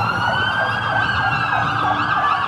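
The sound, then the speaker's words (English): Sirens wail from military and government vehicles rushing through city streets. Several loud, overlapping siren tones rise and fall continuously, with traffic noise underneath and no voices. “You saw military and government vehicles rushing through the streets. From my vantage point, it sounded like this.”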